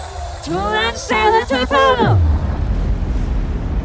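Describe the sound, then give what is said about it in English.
A giant wall-of-fire shield in a video game erupts into a steady, dense roar right after a shouting voice, the rushing noise filling the rest of the moment without letting up. “I mean, still technically a shield, but giant wall of fire. Now that is entertainment.”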